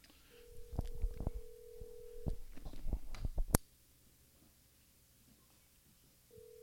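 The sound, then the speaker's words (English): A telephone ringback tone plays while a listener is being called: one steady tone lasts about two seconds over clicks and handling bumps, then a long silence, then the tone starts again at the very end. “Go ahead and call. So we asked some people about what they think. We're going to give them a call.”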